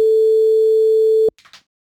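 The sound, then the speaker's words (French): Steady telephone line tone heard while calling someone back, a single unbroken mid-pitched note holding for about a second and a quarter before cutting off abruptly, followed by a few faint brief sounds. “On va rappeler tout de suite Yasmine. Paf, c'est parti. En espérant que Yasmine est toujours disponible.”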